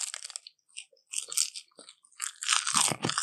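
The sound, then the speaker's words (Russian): Crunching of dried sushi seaweed being bitten and chewed: several sharp, dry, crackly bursts separated by short pauses, growing denser and louder toward the end, with no talk over it. “Это водоросли для суши.”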